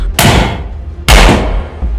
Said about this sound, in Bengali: পরপর আরও দুটো গুলির শব্দ